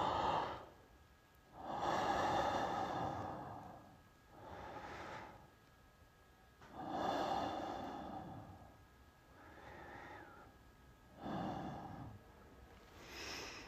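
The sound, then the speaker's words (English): Slow, deep breaths close a meditation, each a long, soft rush of air drawn in and let out. They come in a steady, unhurried rhythm with quiet gaps between, faint and with no speech. “And now we will close the meditation by taking three more big deep breaths.”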